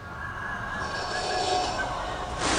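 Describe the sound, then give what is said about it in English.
A deep breath drawn in: a long, steady, airy rush, faint and heard alone, turning slightly brighter at the very end. “There's that deep breath.”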